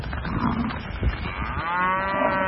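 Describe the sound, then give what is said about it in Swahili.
Cattle mooing while pushing through a doorway into a salon in Nanyang, Henan: a loud, low bellow that swells into a long, drawn-out moo, set against rough shuffling and scraping noise. “huko Nanyang, mkoa wa Henan, zinazowaonyesha ng'ombe hao wakisukumana kwenye mlango na kuingia kwenye saluni hiyo wakigonga vipande vingi vya samani”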